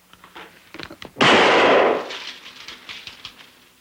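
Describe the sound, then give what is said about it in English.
A single gunshot as Charles Mingus fires a gun into his own ceiling while threatened with eviction: one loud, broad blast that holds for almost a second and then decays, with faint scattered clicks before and after. “A 1968 documentary reveals how, when threatened with eviction, he picked up a gun and shot a hole in his own ceiling.”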